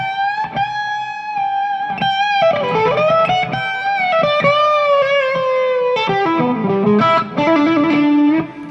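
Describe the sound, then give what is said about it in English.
Electric guitar played through distortion pedals and an amp: loud, continuous distorted tone with sustained notes and chords, some sliding and bending pitch, shifting through several phrases with no talk. “getting the balance between the distortion pedals and the matched volume of the amp, so the impedance is right”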